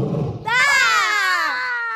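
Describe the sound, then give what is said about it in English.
A wild, hungry animal lets out a blood-curdling roar: a loud, high, strained cry that holds and then slowly sinks in pitch. A short low rumble comes just before it. “What was that? That was a wild and desperately hungry, blood-curdling roar.”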